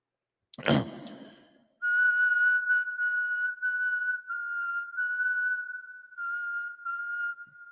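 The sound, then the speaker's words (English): A person whistles a tune alone: a sustained, clear, high whistled melody with small pitch shifts and short breaks, following a brief noisy burst at the start. “dude, that's amazing. I know. It almost had a creepy vibe to it. I was thinking about like the Crypt Keeper being a professional whistler.”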